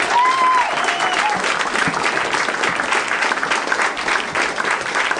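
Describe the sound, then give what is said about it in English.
An audience applauds and cheers two contestants after a game at a live show: loud, dense clapping with a few high whoops near the start, continuing at an even level. “Cheer for Bethany and Dan.”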